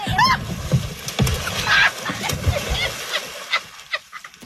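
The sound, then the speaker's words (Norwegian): Two people tumble from a boat into the water: a few splashes, sloshes and knocks, with a burst of commotion early on and softer water sounds after. “det blir en ufrivillig dukkert for deg begge to”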